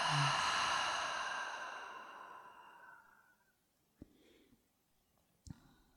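Long breathy exhale through an open mouth, loud at first and slowly fading to near silence over a few seconds, followed by two brief faint clicks.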